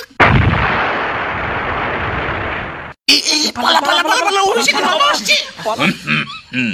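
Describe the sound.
A homemade time bomb built by a ninth-grade boy explodes in a sudden loud blast, and a broad roar slowly dies away over about three seconds. It cuts off abruptly, then voices talk.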